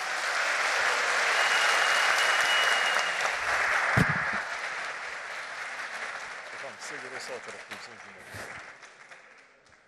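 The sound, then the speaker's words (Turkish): Audience applause in a hall at a draw ceremony: many hands clapping build to a loud, dense roar, then slowly thin and fade over about ten seconds. “Sayın Cumhurbaşkanımıza gösterebilmek için salonumuzdan olabildiğince kuvvetli bir alkış rica edebilir miyiz?”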